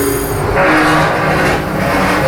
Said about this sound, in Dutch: We openen nu de deur naar de cyclotronbunker. En zoals je wel ziet, is een forse deur. Dat is nodig om de straling tegen te houden.